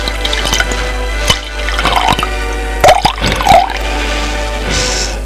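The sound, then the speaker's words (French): Water poured into a drinking glass, trickling and gurgling with small bubbly splashes and a few light clicks, all over a steady low hum. “Elle remplit un verre d'eau.”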